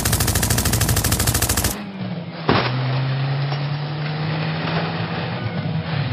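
A Tommy gun fires from a moving truck in a dense, rapid rattling burst lasting under two seconds, then gives way to a loud engine roar with a steady drone and one more sharp crack. No talking.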